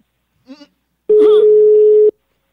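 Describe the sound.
A telephone call is placed: a single steady, low ringback tone sounds for about one second, preceded by a brief spoken word, with a voice overlapping the start of the tone.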